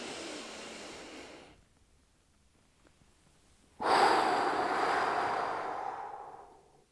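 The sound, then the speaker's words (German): Deep breathing during a relaxation exercise: two long, airy rushes of breath separated by a silent pause of about two seconds. The second breath is louder and longer than the first, and no voice is heard. “Also mach auch Atemübungen, atme tief ein halte kurz 4-5 Sekunden den Atem, atme richtig in den Brustkorb und dann einfach ausatmen.”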